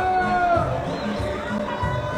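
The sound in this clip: Baseball stadium crowd murmuring during a game, a steady hubbub of many voices with a male commentator talking over it throughout.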